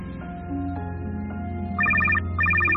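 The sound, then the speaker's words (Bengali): A telephone ringtone plays as two bursts of bright electronic trilling beeps over a steady background of tones and low hum. The second burst follows a short gap after the first. “এক minute, একটু ফোনটা ধরে নি।”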